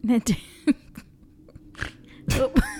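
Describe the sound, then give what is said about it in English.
Snorting laughter: a few sharp, nasal bursts of breath mixed with voiced, laugh-like sounds, with a louder cluster near the end. “That was a good snort.”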